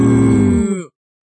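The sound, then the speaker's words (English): A single deep cow moo from a big cow, loud and low with a rich harmonic tone, lasting just under a second before cutting off. “Look at the cows! Wow, they're big cows”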